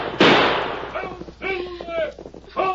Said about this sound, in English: Shoot them, Hunk. I'll show them.